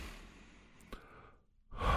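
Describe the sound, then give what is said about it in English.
A slow, deep calming breath, heard as a long, airy, sigh-like exhale that gradually tapers off, soft and without talk, before another breath begins. “Relax. Take a deep breath. Do it with me.”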